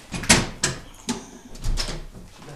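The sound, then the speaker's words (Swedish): A stiff window being closed, with a few sharp knocks and bumps followed by a broader scraping push as the sluggish frame is forced shut. “Jag tänker stänga för det är några jäkla grävmaskiner utanför. Ja, åtminstone. Ja. Ja. Det är lite trögt det där fönstret, jag kan behärska det.”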